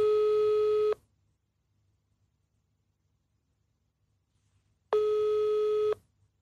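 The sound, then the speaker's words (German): Phone ringback tone on an outgoing WhatsApp voice call: two steady one-second tone bursts separated by about four seconds of near silence, clear and even in level. “Ruf ihn an. Live. Sprachanruf starten, ja. Anruf.”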